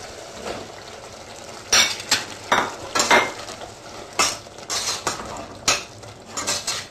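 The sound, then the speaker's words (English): A spoon stirring cubed aubergine into a simmering spiced turmeric sauce in a pot, a run of irregular scraping and clinking strokes with a faint sizzle beneath. “Mix it in well and let it simmer for a while.”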